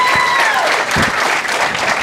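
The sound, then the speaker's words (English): Audience applause at a church service, a dense, steady wash of clapping from many hands, loud and continuous from start to finish. “Would you guys give her a round of applause?”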